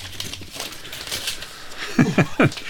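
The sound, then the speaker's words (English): Paper crinkles and rustles as a wrapped gift calendar is unwrapped, several short bursts of crisp rustling of moderate loudness. “Let me unwrap this real quick.”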